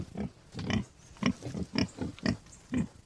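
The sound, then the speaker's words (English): Boar grunting in a run on a farm near the Kilkenny-Waterford border: a steady series of many short, low, throaty grunts in an uneven rhythm, loud and clear with no talk. “Micheál Hanrahan farms boar near Lister Lynn on the Kilkenny-Waterford border, and he let me get up close and personal with his stock”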